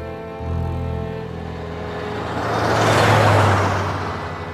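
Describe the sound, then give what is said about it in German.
Two cars speed along a highway through Arizona, a steady road drone of engines and tyres that swells to its loudest past the midpoint before easing off again. “Zwei Autos jagten mit großer Geschwindigkeit auf der Überlandstraße durch Arizona.”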